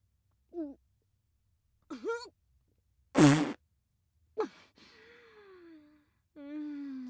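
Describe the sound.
A single short, loud fart burst stands out between brief breathy vocal gasps and sighs, with a longer moaning voice sound after it.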